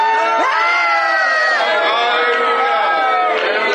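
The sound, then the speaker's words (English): A church audience shouts and cheers loudly and without pause, many voices overlapping in whoops and cries throughout. “Well, I'm not against y'all shouting.”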